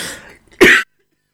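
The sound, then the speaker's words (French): A single sharp cough from a man after he abruptly cuts his microphone, loud and short, following a faint trailing sound, then silence. “C'est parce que moi, j'ai coupé le micro d'un coup et j'ai toussé, en fait.”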